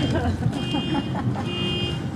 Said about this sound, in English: Yeah, that horn is sick. My fault, bro. I don't know who crashed the golf cart or something.